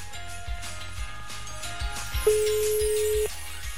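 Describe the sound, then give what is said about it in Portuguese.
A single steady ringback tone sounds as a phone call is placed: one even, mid-pitched beep lasting about a second, heard over quieter background music. “Estamos ligando já. Vai chamar?”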